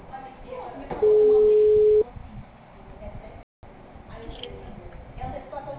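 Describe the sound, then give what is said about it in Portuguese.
A telephone ringback tone plays during an outgoing call: one steady, mid-pitched tone lasting about a second, with quieter background sounds before and after. “Chamando.”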